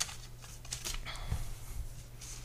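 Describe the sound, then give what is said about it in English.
Paper question cards rustle as one is drawn from a pile during a card game. A few soft, crisp scrapes and flicks are heard, faint and without talk. “We're drawing again, folks. From the third pile of questions.”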